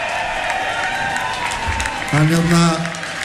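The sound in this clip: A concert crowd gives warm applause for the veteran sound engineer. The clapping is steady and fairly loud throughout, and a voice enters over it near the end.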